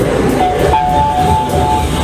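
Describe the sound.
A metro train arrives at a station with a loud, continuous rumble and clatter of the carriages, and a thin, sustained brake squeal rising over it partway through.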